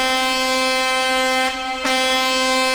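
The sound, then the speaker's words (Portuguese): A truck air horn blares in a long, loud, steady blast with a rich, buzzing harmonic tone. It dips briefly near the end, then carries on at full strength. “buzinando aí pra mim, pra nós aqui da boa, cadê os caminhoneiros?”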